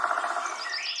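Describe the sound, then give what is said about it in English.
Birds chirp in a garden coming to life: a brief burst of high twittering calls that grows busier toward the end over a soft, steady lower tone. “Do you hear that? That's the sound of your garden coming to life.”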